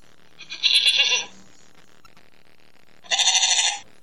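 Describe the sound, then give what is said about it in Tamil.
Two loud bleats from a sheep, each lasting about half a second and separated by a pause of roughly two seconds. Both are bright and nasal with strong harmonics. Faint ticking and rustling sounds sit between them. “என்னில் பல வகை உண்டு, அதில் ஒரு இனம்தான் செம்மறி ஆடு, அதுதான் எனது பெயர்.”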